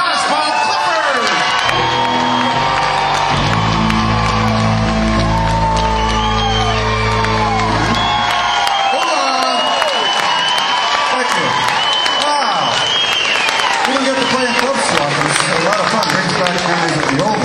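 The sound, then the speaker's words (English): A crowd at a Nashville concert cheers, whoops and applauds loudly as a drummer is introduced, a dense continuous roar of clapping mixed with shouts and yells that holds for the whole stretch. “Put your hands together and give him a big Nashville.”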